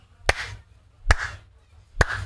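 Lukewarm applause after a song at a private performance for footballers is mimicked with three slow, isolated sharp claps, about a second apart, each leaving a brief ring in an otherwise quiet space.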